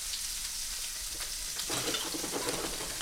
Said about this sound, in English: we don't want to turn them until they've had a chance to get a good sear on the first side